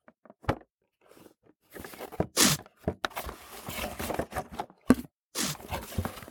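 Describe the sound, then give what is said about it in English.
Packing tape is pulled and pressed onto cardboard boxes, giving a few sharp ripping bursts and scattered crinkles and taps that are fairly faint, with gaps of near silence between them. “Maryam was surrounded by cardboard boxes. The sound of boxes being taped echoed throughout her now empty home.”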